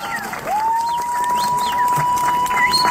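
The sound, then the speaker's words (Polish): A man imitates bird song at a bird-call imitation championship, whistling a note that rises, then settles into a long, steady pure tone, with brief high chirps over a noisy background. “z mistrzostwami w udawaniu ptasich treli. To nie ptak, to człowiek, proszę Państwa.”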